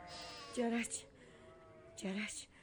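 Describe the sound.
Lambs bleat in the flocks. Two wavering, nasal bleats are heard, each short and fairly faint.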